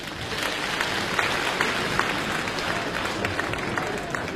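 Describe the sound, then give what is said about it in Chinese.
An audience applauds crosstalk comedy performers at a Beijing stage show with steady, even clapping throughout, scattered with a few sharper claps. “这个女相声演员上来掌声就是不一样”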